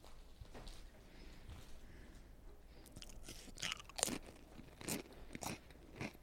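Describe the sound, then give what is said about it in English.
Crunching a French Lay's roast chicken flavour potato chip, a few crisp, brittle bites mixed with quieter chewing, faint and without talk. “All right, I'm tasting a chip.”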